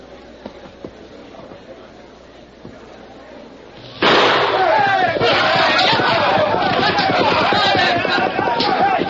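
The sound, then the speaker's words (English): A signal gun fires to start a horseback land-rush race: after a low murmur, a sudden loud burst sets off a sustained roar of shouting crowds and hard-riding horses that stays loud to the end. “I'll fire the signal in exactly 5 seconds.”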